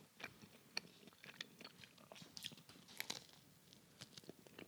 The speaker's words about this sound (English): So I'm just going to take a moment to chew.